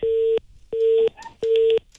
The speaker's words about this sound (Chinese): 他把这个电话直接挂掉了